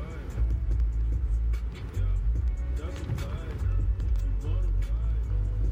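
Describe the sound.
A car being driven home, heard from inside as a steady, low engine and road rumble that holds an even level throughout.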